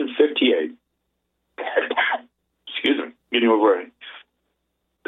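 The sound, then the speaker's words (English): Throat clearing and coughing from someone with a mild head cold: several rasping bursts separated by silences, thin and band-limited like a telephone line. “getting over a little head cold, not a very severe one, but I apologize if I have to interrupt with this little coughing every now and then.”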